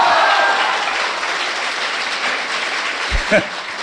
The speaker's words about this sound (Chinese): 谢谢朋友们的掌声。 哎，鼓励。 如果说您这个掌声再热烈点会更好 啊。